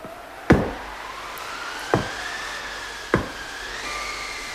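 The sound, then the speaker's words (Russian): Knocking on a door: three sharp, evenly spaced knocks ring out over a soft, steady musical tone. “Кто-то стучится к нам. Слышишь, Краснозорька?”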